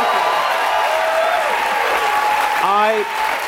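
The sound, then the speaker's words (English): Studio audience applause welcoming a Democratic senator from Minnesota onto a talk show: loud, dense, continuous clapping that holds steady throughout. “Please welcome Senator Amy Klobuchar.”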